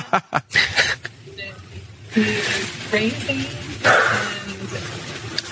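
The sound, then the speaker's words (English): A female Pomeranian barks a few sharp, loud bursts at the start, then falls quiet while people talk over a faint background hum. “my dog is going crazy. What kind of dog is that? It sounds like a Great Dane. It sounds like a huge, massive beast. She is Pomeranian named Nala.”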